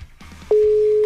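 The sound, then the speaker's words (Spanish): A WhatsApp call's ringback tone: a loud, steady single-pitched tone that begins about halfway through and holds unbroken, after a stretch of faint, indistinct background sounds. “Ahí sí está sonando. Ojalá nos conteste.”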